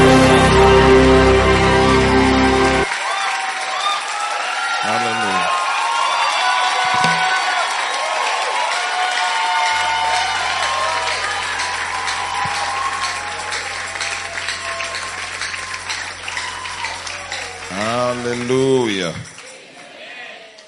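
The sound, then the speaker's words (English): An audience applauds and cheers to welcome an apostle to the pulpit at a church gathering. The clapping is loudest at first, then carries on beneath cheering, shouts and voices for the rest of the stretch. “Ladies and gentlemen, put your hands together as you make welcome to be a blessing to God's people, Apostle Arome Osai.”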